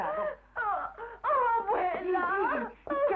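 A girl cries and sobs in a string of wavering, wailing bursts with short catches of breath between them.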